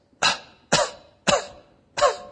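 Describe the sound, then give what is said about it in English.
Fake coughing imitating a baby, four short sharp bursts at a steady spacing, fairly loud with no voices around them. “Oh, now there's a cough, and mom is coming to check.”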